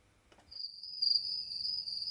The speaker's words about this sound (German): Ja, das finde ich wunderschön, besonders wenn man am Abend dann da draußen sitzen kann und sich die Grillen einfach mal so anhört.